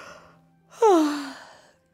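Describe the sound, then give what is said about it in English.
A single yawn, a voiced breath that swells suddenly, then slides downward in pitch and trails off into silence. “From time to time, someone yawned.”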